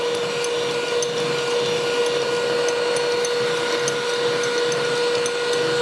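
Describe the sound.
An electric blender whirs steadily as it mixes ingredients until no white lumps remain, a constant, even motor drone with a thin sustained tone and no break from start to finish.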